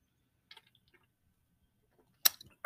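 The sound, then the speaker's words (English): A cold can of Busch Light beer is cracked open. A few faint clicks of handling come first, then a sharp, loud snap with a brief fizzing hiss, and another burst right at the end. “a little Busch Light. When your Guinness is frozen, you go to the Bushy Treats, baby. Crack some cold ones.”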